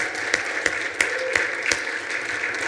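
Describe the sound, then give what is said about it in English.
A church audience claps in welcome, giving a clap offering. The applause is steady and even, with a few sharper claps standing out at regular intervals. “But I want to give a clap offering to all the Rock Church all across the valley and all across the country. Let's welcome them this morning.”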